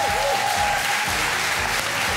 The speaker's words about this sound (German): Dann gibt es einen tosenden Applaus für Joel aus Hamburg.